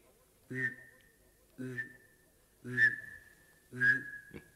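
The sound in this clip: A person whistles an imitation of a bullfinch call: four short, soft whistled notes spaced evenly apart. Each holds a steady mid-high pitch and opens with a brief low voiced hum.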